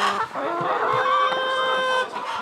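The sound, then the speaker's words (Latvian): Hens clucking in a new winter henhouse that holds 145 hens, a dense, continuous chorus of overlapping clucks and drawn-out calls at a fairly loud, steady level with no talk. “Mazliet tālāk aiz mājas ir izbūvēta jauna vistu ziemas novietne, kurā dzīvo 145 vistiņas.”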